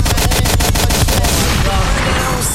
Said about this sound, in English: I need a bigger gun. With a reality check. That gun was too small. Still hold on, reload.